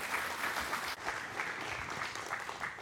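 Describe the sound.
A church audience applauds to welcome a speaker coming up to teach at a morning service, with steady, continuous clapping at moderate loudness and no talk over it.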